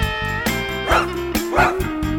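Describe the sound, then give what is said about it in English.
A dog barks twice in short, sharp yelps over loud music with a steady sustained tone underneath. “They'll lick you in the face now when you wake. And when dinner's on the table, they're never late. Dogs.”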